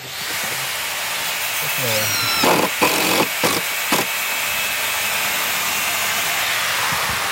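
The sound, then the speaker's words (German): Hammering and screwing during construction of an open-air festival site beside a tennis court in Bonaduz: a quick cluster of a few sharp knocks over steady background noise. “Es wird gehämmert und geschraubt neben dem Tennisplatz zu Bonaduz.”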